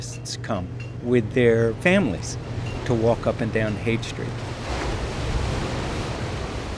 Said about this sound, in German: Ich blinzle in die gleißende Brandung an einem Sandstrand von Big Sur, 3 Autostunden südlich von San Francisco.